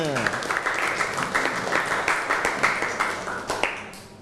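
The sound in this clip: Students clapping in a classroom, a crisp flurry of many hand claps with a voice briefly at the start, fading out toward the end.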